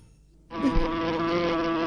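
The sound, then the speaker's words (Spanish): A housefly buzzing sound effect starts abruptly after a brief quiet moment and drones on steadily at an even pitch until the end. “Una mosca.”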